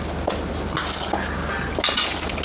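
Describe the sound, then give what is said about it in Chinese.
Metallic clicks and light clinks come from someone opening a lock, a few small rattling impacts scattered over steady low background noise. “哎，这锁我能打开，你介意吗？”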